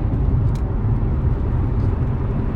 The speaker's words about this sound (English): Again, we having issues. It's a car trying to come out here in the middle of everything. An oversized load.